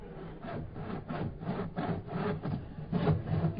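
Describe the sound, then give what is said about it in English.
A saw cuts into a wooden safe in a cellar, giving steady back-and-forth rasping strokes, roughly two per second, coarse and fairly loud, with no voices. “Turn the volume on that saw down. You want to wake the government up?”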